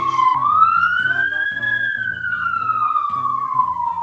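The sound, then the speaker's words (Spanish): A police patrol car siren wails as it passes, a loud single slow tone that rises in pitch and then gradually falls over about four seconds, over a low pulsing rumble. “Acaba de pasar justo acá una patrulla con un protocolo de alguien que seguramente ha fallecido de COVID.”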